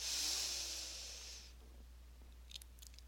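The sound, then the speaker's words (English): A person inhales deeply with a soft, airy hiss for about a second and a half. It fades to near silence, with a few faint clicks near the end. “Again, inhale”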